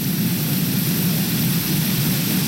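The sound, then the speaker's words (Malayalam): Rain on a rainy evening makes a steady, dense hiss that stays at one even loudness throughout, with no separate louder events standing out. “ഇതൊരു മഴ സന്ധ്യ അങ്ങനത്തെ ഒരു മോഡലാണ് കേട്ടോ. നല്ല ഇടിമുഴക്കവും”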